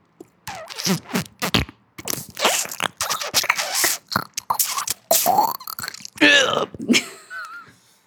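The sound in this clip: A voice imitates the sound of thumbs being squeezed into eyes, making many irregular wet, crunchy, squelching mouth noises in quick bursts, with a few thin whistling tones near the end.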